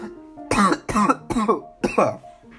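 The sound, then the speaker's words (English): A person coughs four times in quick succession. The coughs are harsh, fairly loud and evenly spaced. “I've just noticed that I start coughing at like every 2 minutes now.”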